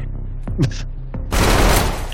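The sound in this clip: Video-game gunfire: a few short, sharp sounds, then a dense, loud burst of rapid shots that fills the second half.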